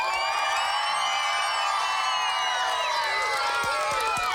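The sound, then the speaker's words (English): A studio audience cheers loudly and continuously, mixing excited shouts, whoops and high screams into a dense wall of crowd noise that stays at full strength throughout. “And then, of course, we have our phantasmagorical studio audience. Are you ready?”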